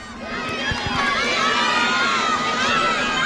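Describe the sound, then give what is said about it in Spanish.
Crowd commotion as town councillors arrive and are introduced at a public event: a dense, continuous din of many voices and shouts that holds steady in loudness throughout. “Sí, mira qué jaleo, mira qué jaleo ahí.”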